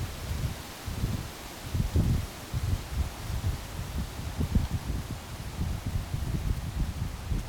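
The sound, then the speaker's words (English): Gusty wind blowing outdoors, a low rumbling buffeting that swells and drops in irregular gusts over a steady soft hiss, with no voices. “I'm experiencing the wind right now. I'm receiving it.”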